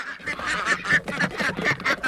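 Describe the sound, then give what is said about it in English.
A flock of farm ducks quacking as they are let out of their duck house at sunrise, many overlapping nasal quacks and honks in a continuous loud chorus with no talk. “Morgan Gold heads to what he calls the quack house to let out his flock. Release the quackers!”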